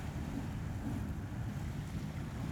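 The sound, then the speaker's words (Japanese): A pom-pom boat, also called a putt-putt boat, chugging along: a steady, low engine rumble that runs without a break, mixed with wind noise. “あのタイプの船のことです。ポンポンポンって音を立てながら走ってくお船。”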